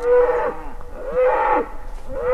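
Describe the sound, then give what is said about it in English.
Deep, drawn-out moos from aurochs-like giant wild cattle, rewilded in the forested mountains of Albarracín in Spain, call to one another at sunset: a few long, loud, tonal calls that repeat one after another with brief gaps between them. “These are aurochs, or giant wild cows, calling to each other somewhere on the next ridge.”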